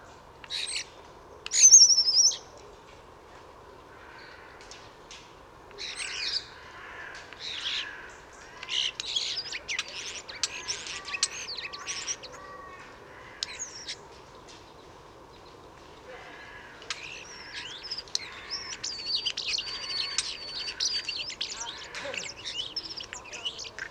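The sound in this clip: Varied song of a single mimicking songbird, packed with flute-like whistled notes, chirps and rapid trills. Bright phrases come in bursts of many notes with short pauses between them, over a low steady background hum.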